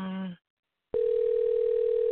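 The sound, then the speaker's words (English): A telephone call rings out unanswered: a steady electronic line tone sounds alone and unbroken, preceded by a short, lower buzzy tone and a brief gap of silence. “Not even going to voicemail, which is a little strange. So I'm wondering if I dialed the right number, because normally it at least goes to the voicemail.”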